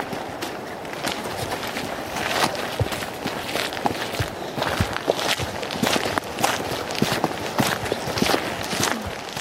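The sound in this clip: Footsteps walk on into a forest along a forest road, a long run of many soft, irregular crunching steps over constant background rustle, with no talk.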